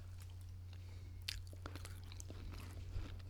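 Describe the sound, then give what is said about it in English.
Lemon-flavoured Pop Rocks candy crackles and crunches while being chewed. The small pops and snaps are faint and scattered, heard over a steady low hum. “They taste real nice. They're lemony. Mm-hmm. Oh, I love pop rocks. I love pop rocks too.”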